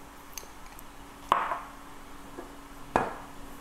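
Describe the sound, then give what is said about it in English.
Chopsticks mixing natto, egg and rice: two sharp, bright clinks a little over a second apart stand out over a faint background, with softer small taps around them. “now that we have all the components together, I'm gonna give it a mix with a pair of chopsticks, as Ty did in his video.”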